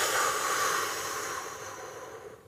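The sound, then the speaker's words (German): A long, pressed exhale during a breathing exercise with a six-count out-breath: a breathy hiss that starts strong and slowly fades to near silence. “einatmen auf 4, 1, 2, 3, 4 und dann 6 aus, also länger ausatmen. Und manchmal muss man anfangen ein bisschen pressen, so.”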